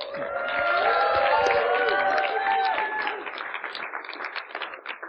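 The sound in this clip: Applause and cheering from an Austin audience welcoming a speaker to the stage, loud and full at first, then thinning into scattered claps toward the end.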